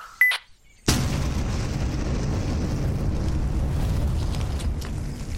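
A white phosphorus grenade goes off with a sudden loud burst that turns straight into a steady, dense roaring rush, holding at an even level for several seconds.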